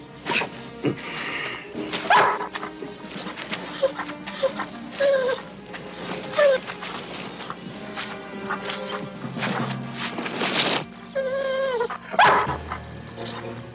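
A dog barks and whimpers in many short, sharp bursts and high yips, interspersed with thin whining cries, with a busy background running throughout.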